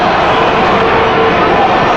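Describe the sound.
Stadium crowd at Estadio Cuauhtémoc during a football match, a loud, dense, unbroken roar of many voices that stays level throughout.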